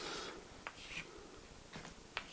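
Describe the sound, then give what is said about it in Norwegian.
A stress-strain diagram is drawn on a surface, producing faint scratchy pen strokes: a few short, dry rubbing scrapes with no talk. “Hvis jeg tegner opp et spenningstøyningsdiagram her,”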